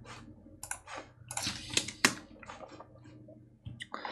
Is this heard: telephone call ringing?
no